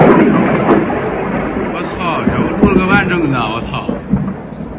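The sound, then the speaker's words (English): Explosion at an oil refinery in Ukraine during the war: a broad rumbling roar that gradually tapers off, with a man talking over it. “They're calling this the UFO blast for obvious reasons. Not because there's an actual UFO involved, but just look what happens to this oil refinery.”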